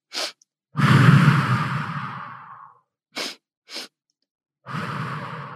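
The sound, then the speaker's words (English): Breathing exercise: short sniffs in through the nose and long breaths out through the mouth. One sniff, a long sighing exhale, two quick sniffs, then another long exhale, with no talking. “it's breathing in for 2 strokes through your nose and out 1 stroke through your mouth”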